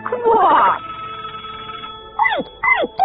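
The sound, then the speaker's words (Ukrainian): Theatre bell announcing the start of a performance: a loud, dense ringing burst of under a second leaves a steady lingering tone, and a few short falling vocal cries follow. “це театральний дзвінок. Він сповіщає, що слід проходити у залу і займати наші місця.”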